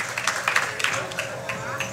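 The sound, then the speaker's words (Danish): Scattered clapping and crowd chatter greet the world's largest cinnamon snail, just out of the oven at a bakery. Irregular claps sound over a steady babble of voices. “Ej, kan vi lige få sådan en tidlig klapsalve på den her?”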